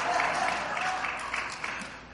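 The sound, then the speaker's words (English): An audience clapping hands during a lively religious talk. A dense, steady patter of claps stays fairly even in loudness, with a voice heard over it. “I love you clapping those hands”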